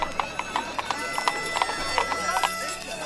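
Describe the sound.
Hooves clip-clop as donkeys pull a cart. Many bright, quick knocks repeat in an even trotting rhythm through the whole stretch.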